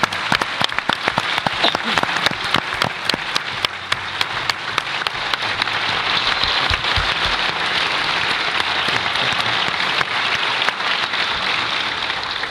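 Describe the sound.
Audience applause at a Spanish-language event honoring an organizer and his family: sharp, distinct claps at first, then merging into dense, loud, steady clapping that fills the whole twelve seconds.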